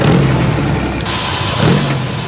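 A car engine runs loud and steady with a low rumble and a slight surge near the end.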